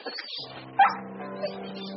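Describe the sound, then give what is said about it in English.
A dog whines softly, then gives one sharp yip partway through before settling back to quiet whimpering. “There's a good dog.”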